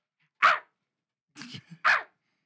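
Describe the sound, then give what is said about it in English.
A human voice imitates a dog across the street barking. It gives three short, gruff barks, the second with a small extra yip, separated by silence. “there was this dog that was right across the street who would, every 3 seconds, would go,”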